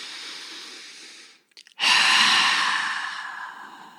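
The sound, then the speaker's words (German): Two long, breathy human breaths during a guided meditation, separated by a short pause with a few faint clicks; the second breath is louder and fades out slowly. “Richte dich einmal auf, nimm nochmal 2 Atemzüge.”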